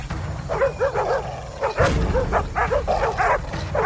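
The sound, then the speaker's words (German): Bloodhounds barking as they are set loose on a pursuit: many quick, overlapping barks and yips in a rapid, agitated series over a constant low rumble. “Lass die Hunde los!”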